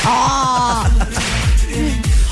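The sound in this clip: Someone slapping themselves, several sharp smacks mixed with voices talking and laughing, the hits landing unevenly over a couple of seconds.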